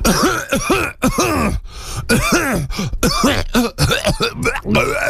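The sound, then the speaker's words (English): A person clears their throat in a run of harsh, rasping bursts with rough, voiced groaning tones, fairly loud, with no other sounds around them. “Excuse me, I had to clear my throat.”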